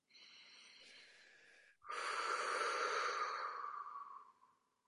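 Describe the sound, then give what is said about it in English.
Deep inhale followed by a louder, forceful exhale during a guided breathing exercise. The steady, airy intake lasts nearly two seconds, and after a brief pause a stronger breath out rushes out before fading away. “breathing in deep and then exhaling maybe more, a little bit more forcefully, as though you're getting rid of all that's not needed.”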